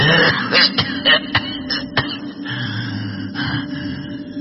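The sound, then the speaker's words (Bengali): An old man coughs violently in a quick run of harsh, rasping bursts early on, then the sound trails off into quieter, lingering noise. “বুড়ো আরো কিছু বলতে যাচ্ছিল, কিন্তু প্রচন্ড কাশি পায় তার, যেন হাঁপ ওঠে।”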